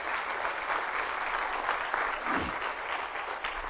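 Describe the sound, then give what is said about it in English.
Congregation clapping hands in a church service as a clap offering, a steady, dense wash of applause from many people that holds loud and even throughout, with no voices standing out. “let's give the Lord a clap offering for being in charge”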